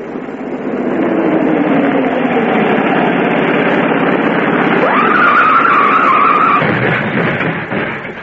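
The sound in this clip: Car tires skid as the car takes a turn on a hill while the engine roars, one long continuous blast of noise. Partway through, a squealing tone jumps higher and holds before fading.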